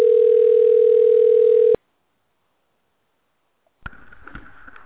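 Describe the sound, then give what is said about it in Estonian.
A steady, single-pitched telephone tone on a sales department's line while the caller is on hold sounds loud for under two seconds, then cuts to silence, followed by faint line noise with scattered clicks. “Hetkel on kõik liinid hõivatud. Jääge palun ootele.”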